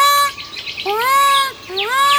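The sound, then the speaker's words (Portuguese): Laughing falcon (cauã), a forest hawk, sings loud, clear harmonic calls, each note swooping upward into a sustained ringing tone, repeated a few times with no other sounds around. “Todo mundo da mata conhece o Cauã, gavião metido a feiticeiro que de madrugada ou de tardezinha se dana a cantar.”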